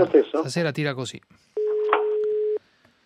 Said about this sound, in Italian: Sta telefonata, non riesce stasera, non c'è niente da fare.